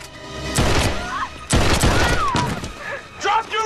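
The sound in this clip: Gunfire rings out as a man is shot against a fence, with a few loud, sharp bangs spaced about a second apart and voices between them.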